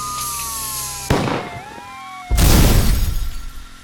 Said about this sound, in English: Time to outrun Johnny Law. Rocket launchers engage.